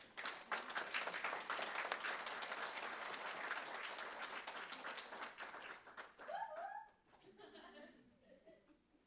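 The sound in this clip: Audience applause welcomes a speaker at an evening program: dense, loud clapping holds steady for about six seconds, then thins out and fades quickly.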